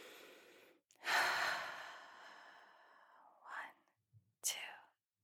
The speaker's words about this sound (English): you take a breath.